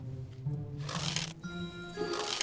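Fortune-telling cards are shuffled in two brief, bright bursts of riffling, separated by a short gap, over a steady low tonal background.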